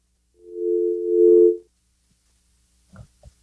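A steady telephone dial tone sounds after a caller hangs up on a call-in sports betting line. A single sustained mid-pitched hum lasts just over a second, then a few faint clicks follow.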